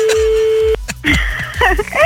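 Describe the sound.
A telephone call is dialed. A steady, loud telephone tone holds for under a second and then cuts off abruptly. Brief shifting electronic tones and line noise follow.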